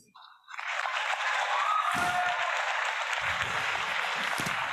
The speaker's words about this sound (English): Ladies and gentlemen, will you please put your hands together and help me to welcome the incredible Jason Hewlett.